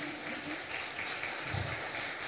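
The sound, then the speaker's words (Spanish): A church audience applauding for Jesus during a Spanish-language sermon, a continuous wash of many hands clapping, steady and moderately faint without clear breaks. “Denle un aplauso poderoso a Jesús.”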